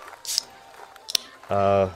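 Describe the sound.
A can of tonic water cracked open: a sharp pop-click and a brief fizzy hiss, followed by a short voiced hum.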